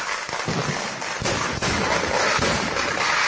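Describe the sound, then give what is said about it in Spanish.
Fireworks at the closing of an Indian New Year temple festival in Kerala, a loud, continuous wash of crackling bursts blending into a dense roar with no clear gaps. “Este es el sonido de los fuegos en la clausura del acto del Año Nuevo Indio.”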